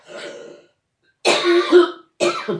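Asthmatic coughing and throat clearing from one person: three rough bursts separated by short silences, the middle one longest and loudest.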